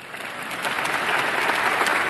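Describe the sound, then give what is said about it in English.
An audience at a talk bursts into applause, a dense continuous patter of many hands clapping that swells slightly and then holds steady, with no voices. “You don't need to clap.”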